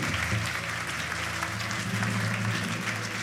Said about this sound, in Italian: Io vi chiedo, prima di dirvi i nomi di chi andrà avanti, un grandissimo applauso per i ragazzi